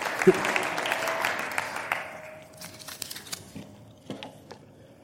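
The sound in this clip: An audience claps to welcome a speaker, starting as a full burst of applause that thins after a couple of seconds into scattered, individual claps.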